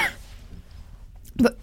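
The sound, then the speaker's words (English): A person coughing: two short, sharp bursts near the end after a quiet, low stretch. “You've got the coughs. What's going on?”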